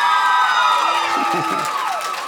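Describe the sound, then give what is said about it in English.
Women in an audience cheering, with high shouts and whoops rising over a steady crowd roar that fades slightly toward the end. “Now, ladies, clap if you thought it was his fault when you broke up.”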